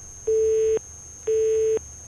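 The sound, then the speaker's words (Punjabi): A telephone tone sounds after a call is disconnected: two identical steady beeps, each about half a second long, spaced evenly with a pause between them, over a faint low hum. “ਲਓ ਜੀ ਪਹਿਲੀ ਕਾਲ ਹੋ ਗਈ ਹੈ disconnect.”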